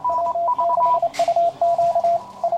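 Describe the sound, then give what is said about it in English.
Morse code beeps on amateur radio, clean steady-pitched tones keyed on and off in short and long bursts at two close pitches, with a brief burst of hiss partway through. “What you're hearing is a dead language, at least for most official uses. It's the Morse code, a binary digital system that dates back to the mid-19th century.”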